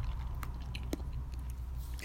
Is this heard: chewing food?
yes